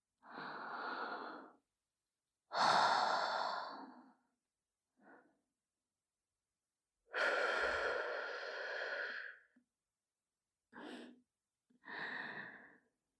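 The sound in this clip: A woman's breathing: six breathy exhales and sighs of varying length, two of them very short, separated by stretches of silence.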